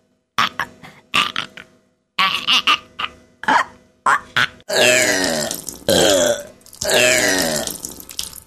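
Gagging and burping after a rubber plug is pushed down the throat: many short, choked retching bursts, then several longer, drawn-out guttural belches, loud and alone.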